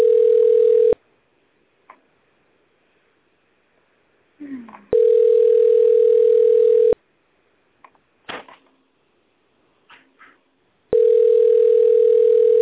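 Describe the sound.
A telephone line tone plays while a caller waits on hold with a sales department: three loud, steady bursts of one mid-pitched tone, separated by long gaps that hold faint clicks and short muffled sounds.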